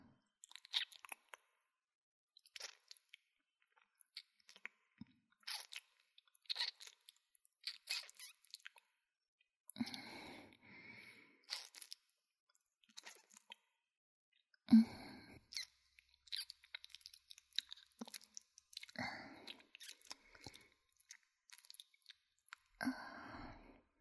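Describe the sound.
Someone chews while tasting food, making many soft, irregular crunches and squishy bites. The bursts are faint and spread across the whole stretch, separated by short silent pauses.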